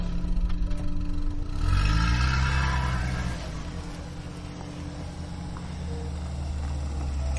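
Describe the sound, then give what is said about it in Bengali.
A car driving, with a steady low engine rumble and road noise that swells briefly near the start, then settles into an even drone with faint clatter. “সম্মতি জানিয়ে আমরা বেরিয়ে পড়লাম কৌশিকদার সঙ্গে আনা গাড়ি করে”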